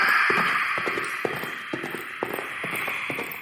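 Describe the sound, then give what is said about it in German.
Horse hooves trample through the night, many irregular thudding impacts in loose clusters over a steady hissing background, with no voices. “Ein schrecklicher Schrei und das Getrampel von Hufen durchbrachen plötzlich die Stille der Nacht.”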